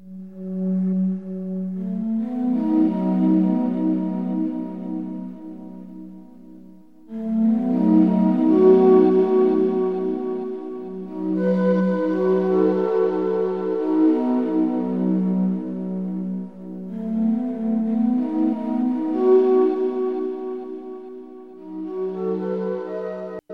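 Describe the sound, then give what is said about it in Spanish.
Floating ambient background music from inside the Deku Tree in a video game. Soft sustained synth pads swell and fade in slow waves, with a low drone underneath. “Este era el sonido de fondo en el árbol Deku.”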